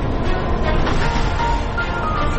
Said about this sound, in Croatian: ovaj podcast ZIP završavamo u autobusu iz Ilijaše za Sarajevo.